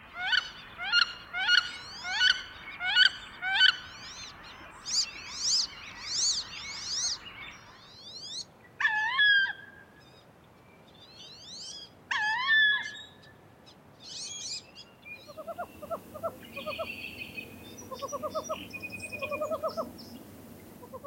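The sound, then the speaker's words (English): Wood duck calls: a female gives loud, rising courtship calls in quick bursts, while a male whistles behind them. Softer, rapid calls from a female searching for a nest site come at the end. “If you guessed a wood duck, you're right. The two loud calls were female courtship sounds, the whistling in the background was a male, and the softer sound at the end was a female searching for a nest site.”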